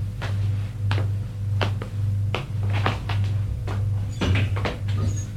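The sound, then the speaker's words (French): A house door being opened: a series of sharp clicks and knocks, like a latch and handle working, over a steady low hum throughout. “et va ouvrir la porte de la maison.”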